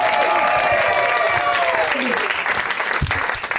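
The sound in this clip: A crowd applauds a comedian with steady, loud clapping throughout, some voices mixed in.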